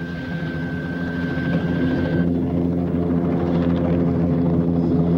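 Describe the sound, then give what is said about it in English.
A helicopter flies off, its rotors making a loud, steady, low chopping drone, while a thin high whine drops out partway through. “The helicopter flies off.”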